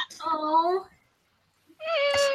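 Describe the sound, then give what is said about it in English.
A kitten meows twice: a drawn-out, wavering mew, a short silence, then a second, higher, brighter mew that is cut off at the end. “there's a cat. Kitten.”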